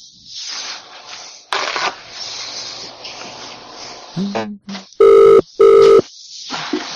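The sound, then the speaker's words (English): A telephone rings in two loud, steady bursts in quick succession while someone places a call, following stretches of talk and a few shorter tones. “I'm going to just keep dialing them.”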